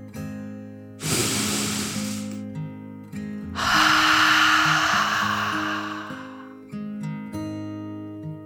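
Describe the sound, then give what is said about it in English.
A deep, slow breath is drawn in and let out: two long, airy rushes of breath separated by a short pause, heard over soft, sustained background music. “Then she took a deep dragon breath, in and out.”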